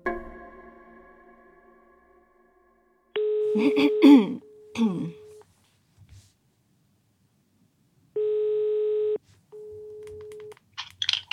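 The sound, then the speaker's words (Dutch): Telephone ringback heard while an outgoing call connects: a few steady electronic ring tones separated by silent gaps, mixed with brief clicks and rustles. “En ik mag haar bellen.”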